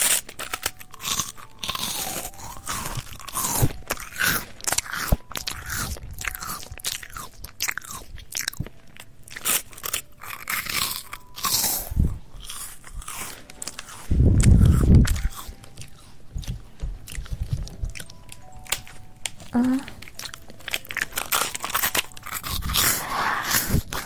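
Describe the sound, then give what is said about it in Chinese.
Crisp crunching and chewing as someone eats crunchy biscuits, many sharp irregular bites and brittle crackles tumbling over one another, with a few louder, heavier chomps standing out along the way. “趁哥哥不注意，把他桌子上的饼干吃掉”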